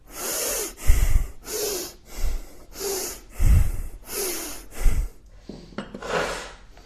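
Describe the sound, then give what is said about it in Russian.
Forceful nasal breathing during a kriya yoga breathing exercise, a steady series of hissing breath cycles with low snorting pulses, ending on a softer, drawn-out inhale. “Длиннее вдох.”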